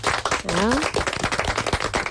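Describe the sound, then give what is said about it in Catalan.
A small group in a radio studio claps quickly and unevenly in honour of two guests, a dense run of sharp hand claps with a brief rising whistle-like tone early on. “Un aplaudiment per ells.”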